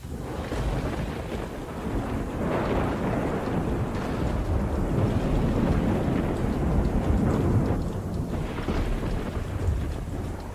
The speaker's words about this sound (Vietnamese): Từ trong đám mây đen, một tia sét đỏ rực phóng xuống giữa bầy quỷ, nổ đánh đùng một cái.